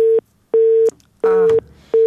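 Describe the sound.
A telephone busy tone after a dropped call: a steady mid-pitched beep pulses on and off at an even rhythm, four clear pulses with equal silent gaps, the last one cut short.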